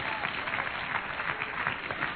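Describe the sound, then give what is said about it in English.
An audience claps their hands in worship, a continuous, dense patter of many hands at a steady, moderate level that carries on unbroken throughout. “Either clap your hands and worship the Lord because God has answers for us in this hour.”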